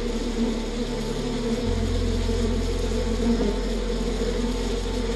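Bees buzz around a hive in a dense, steady swarm drone. A constant low hum sits underneath, and the buzzing stays even and continuous without any clear rise or fall.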